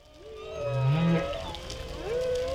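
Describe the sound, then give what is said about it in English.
Humpback whale song: a low, moaning upsweep followed by higher, drawn-out tonal cries that swoop upward, sounding alone and clearly. “Take the humpback whale”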